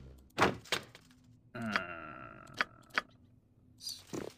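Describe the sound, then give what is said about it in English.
Crate kicked open in a video game: a few sharp, heavy thunks, with a sustained humming tone in the middle that fades as more knocks follow. “kick open a crate.”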